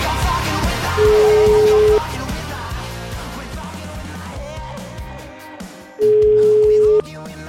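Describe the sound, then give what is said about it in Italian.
A telephone call rings out: two long, steady ringback beeps about five seconds apart, heard over busy background sound with voices. “chiamiamo Franzoni, ti prego, dai”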